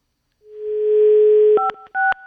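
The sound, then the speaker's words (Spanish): A steady telephone dial tone hums for about a second, then two short keypad tones cut in one after another as a number is dialed. “Ah, no es cierto, no voy a contestar, voy a marcar. Hay que marcar al 5”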